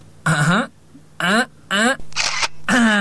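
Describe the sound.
A camera shutter snaps while taking a photo, a short, crisp burst landing between stretches of people talking.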